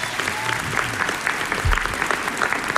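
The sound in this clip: An audience applauds a pianist introduced at the Folle Journée music festival: dense, steady clapping that holds at an even level throughout.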